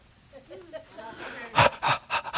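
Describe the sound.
A voice imitates heavy panting, like a worker tiring while shoveling grain out of a grain bin in the heat: a few loud, breathy huffs in quick succession, following softer voiced murmurs.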